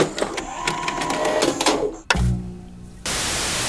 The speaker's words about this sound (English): Oh, that's my breakfast machine.